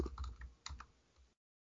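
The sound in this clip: Keys clatter on a computer keyboard in a short burst of typing, a few quick clicks over about a second before everything falls silent.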